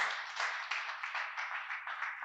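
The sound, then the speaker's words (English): A church audience claps together during a sermon, a steady, fairly faint wash of many overlapping hand claps that holds evenly from start to finish. “Can somebody clap to the Lord if that word has blessed you?”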